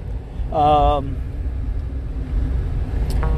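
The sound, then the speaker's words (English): Steady low rumble of a car on the road during a food delivery run continues unbroken, with a brief tonal sound early on. “So I'm driving.”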